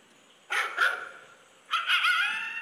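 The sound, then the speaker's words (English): Dog barking in a played-back recording made during a coyote encounter: two short bursts of high, sharp barks and yips, each burst holding a couple of quick notes, separated by a brief quiet gap. “Did you hear it? Listen. That's my dog.”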